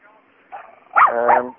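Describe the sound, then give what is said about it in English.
A dog barking outdoors, giving a couple of sharp, yelping barks with a rising and falling pitch. “That's my dog.”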